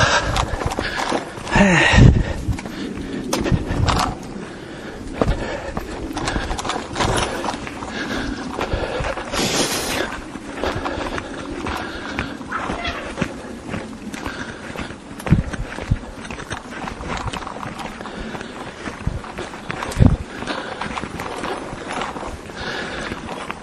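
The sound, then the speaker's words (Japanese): Footsteps climb a flight of stairs during a walk along an old Kamakura road route, with a few sharper steps standing out over a steady rustling background noise. “しょうがない階段行きますか”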